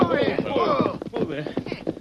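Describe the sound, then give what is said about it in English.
Hooves of several horses ridden up and reined to a halt before a ranch corral gate, a few soft thuds mixed with voices calling out over them. “The Lone Ranger and Tonto quickly overtook Jimmy and Old John, and the four men rode a shortcut to the Carter Ranch a few miles from town. They reined up their horses before the corral gate.”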